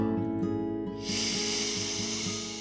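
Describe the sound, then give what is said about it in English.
During a breathing exercise, a slow exhale through the mouth sets in about a second in as a soft, steady breathy hiss that continues over a sustained musical drone. “Take a moment to connect to your breath, breathing in through the nose, pausing for just a moment, and then exhaling through the mouth, like so.”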